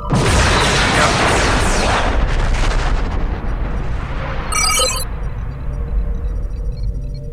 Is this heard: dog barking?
no